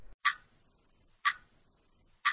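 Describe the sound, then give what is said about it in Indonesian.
A clock ticks three times, each a sharp, crisp click about a second apart, with near silence between them. “Detik demi detik terus berganti. Waktu terus bergulir.”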